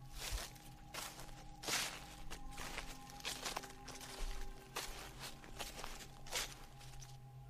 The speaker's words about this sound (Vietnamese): bên ngoài cánh cửa tôi nghe tiếng bước chân đi.